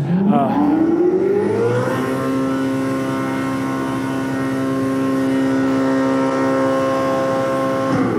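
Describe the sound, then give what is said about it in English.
A Ferrari engine revs up, its pitch climbing sharply for about two seconds, then holding a loud, steady high-pitched wail until the end. “But okay, you rev it up a little bit. This is literally from Ferrari's website, by the way.”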